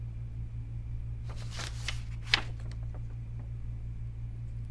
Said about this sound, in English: Nope, I don't wanna tear my pages apart.